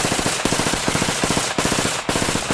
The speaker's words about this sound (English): This is the sound of an M16.